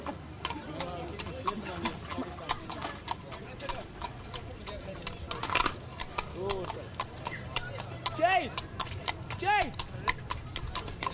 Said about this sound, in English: I have this horse about here.